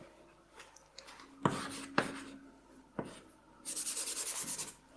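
Scratchy strokes of someone drawing a diagram on a board: a few sharp, separate marks, then a quick run of short rhythmic rubbing scribbles near the end, moderately loud against a quiet background.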